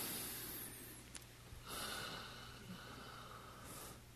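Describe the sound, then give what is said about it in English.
Faint, airy breathing as someone sits comfortably and takes a deep, slow breath during a breathing exercise, rising in two soft swells of rushing air with no talk. “Put your finger here. And take a deep, slow breath.”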